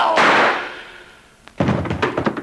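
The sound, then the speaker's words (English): A single gunshot cracks out as a sharp, loud burst that decays over about a second, followed after a short lull by a cluster of rough, clattering noises. “You shot him. You shot a cop.”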